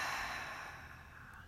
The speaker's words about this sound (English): take a deep breath. Exhale.